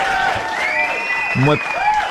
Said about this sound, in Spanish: ¿Me puedo robar, por favor, algunos de esos aplausos?